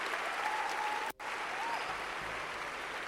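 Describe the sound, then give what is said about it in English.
An audience at a church service claps steadily as people return to their seats. The dense applause is continuous and evenly loud throughout, with only a brief dip partway through. “Clap for them as they go back to their seats.”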